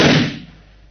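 A single gunshot fired at a wall beside an earlier bullet mark: one sharp, loud crack that fades quickly.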